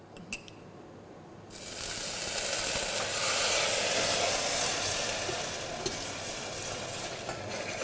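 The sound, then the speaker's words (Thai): Sugar, diluted with a little water, sizzles while being stirred and caramelized in a pan over low heat. Quiet at first, the sound swells into a steady, loud hiss with stirring noise that continues to the end. “ตอนนี้ขั้นตอนนี้ครับเราจะต้องเจียวน้ำตาลนะครับให้ขึ้นสีก่อนเราเรียกว่าการขึ้นสี”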